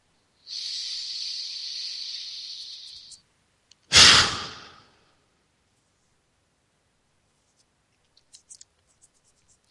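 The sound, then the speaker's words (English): A deep breath taken during a guided breathing meditation: a long, steady, hissing inhale of nearly three seconds, a brief pause, then one forceful, breathy exhale that fades within a second, followed by quiet with a few faint clicks. “And so take that breath now.”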